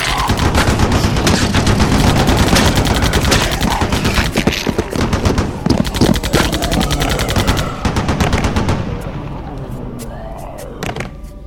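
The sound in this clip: Automatic gunfire aimed at the heads of attackers: rapid, loud bursts of shots rattle almost continuously and thin out toward the end, with voices mixed into the noise.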